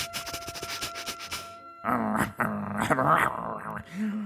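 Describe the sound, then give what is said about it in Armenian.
A dog's growl, in a story about a hunter's dog that cannot bark: a rough, pulsing rumble for about the first two seconds, followed by talking. “Բարև շուն։ Բարև, ինչ տարօրինակ ես մռնչում։”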